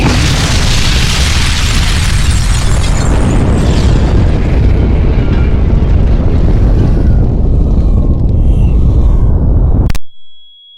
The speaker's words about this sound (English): First warhead has detonated. 7 kilometers above town. The main force of the blast is being directed upwards